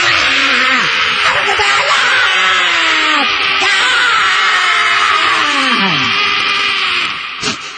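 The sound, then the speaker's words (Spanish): Hysterical female fans screaming in a packed crowd on a hot street, a dense, high-pitched wall of shrieks that runs without a break throughout. “una masa histérica gritando y dejando las cuerdas vocales en el suceso”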